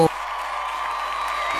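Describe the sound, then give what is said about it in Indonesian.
Applause and cheering from a crowd begin abruptly after a brief opening sound, then continue as a steady, hissing wash of clapping at an even, moderate level. “Kita kasih dulu tepuk tangannya, yo.”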